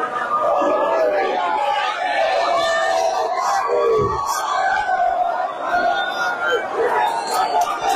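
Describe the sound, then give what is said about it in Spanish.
Crowds cross from the Spanish side into Gibraltar on the day the border fence came down, celebrating with a dense, continuous mass of voices, chatter and shouts. “Este es el sonido de los ciudadanos pasando del lado español al gibraltareño.”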